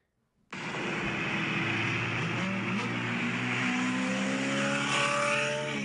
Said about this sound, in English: A Maserati. Also, is that turbo noise at the end from that?